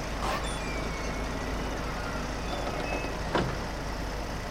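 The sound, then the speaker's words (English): A bus arrives and stops outside a feed and seed store, its engine giving a steady low rumble throughout, with a short sharp hiss near the end. “The bus arrives at a building with a sign that reads, Heretic Feed and Seed.”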